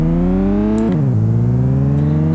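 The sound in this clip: A video game Audi quattro race car engine drones loudly and steadily. Its pitch drops sharply as it shifts gear, then climbs again as it revs back up.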